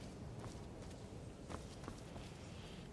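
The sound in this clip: Footsteps descending stone steps in the video game Skyrim, at the Mages College. A few soft, faint steps sound against a quiet background.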